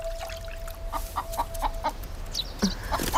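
Chickens cluck as they are fed in a courtyard, giving a steady series of short, sharp clucks at a moderate level with no talk.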